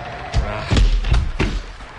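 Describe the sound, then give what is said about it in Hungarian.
A door is slammed shut on sheep being herded in from the rain, giving four heavy, dull thuds in quick irregular succession. “Csukjátok rájuk az ajtót,”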